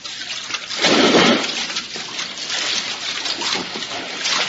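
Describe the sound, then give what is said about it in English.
Water splashing as someone swims across the surface toward the center of a lagoon: a loud burst of churning splashes early on, then steady rushing and sloshing water that continues to the end. “If you will swim to the center on the surface, we will give you the exact location.”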